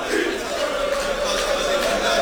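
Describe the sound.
Football supporters chant at a stadium in Kadıköy. A dense, steady roar of many voices keeps a sustained chant going at an even, loud level throughout.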